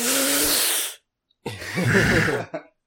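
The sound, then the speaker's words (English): Voices act out a sharp, wincing intake of breath for a fantasy scene in frigid ruined hallways. Two breathy gasp bursts are split by a brief silence, the second ending in a short catch. “You hear a sharp intake of breath in the silence that follows. Let's do a sharp intake. 1, 2, 3.”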